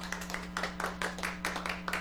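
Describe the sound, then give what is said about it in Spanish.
Many people clap together at a community gathering to thank the group for its work, giving steady, rhythmic bursts of claps over a constant low hum. “La gente aplaude largo”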